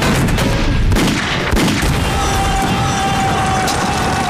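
A loud artillery gun fires a shell with a delay fuse. A few heavy blasts break through a dense, roaring rumble, with no voices heard.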